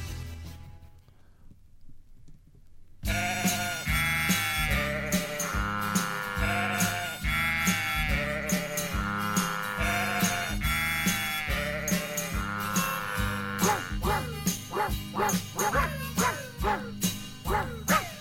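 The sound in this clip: A song cover performed with barking dog and clucking chicken sounds: after about three seconds of near silence, a steady rhythmic melody of pitched animal calls plays on, turning into quicker, choppier notes near the end.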